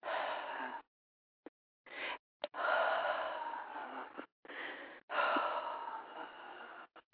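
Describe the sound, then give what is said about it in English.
A person breathes out during a chakra breathing exercise, pushing air from the lungs in several breathy, hissing bursts, two of them long and forceful, separated by brief silences, with no talk. “Now, I am going to breathe out because I'm human.”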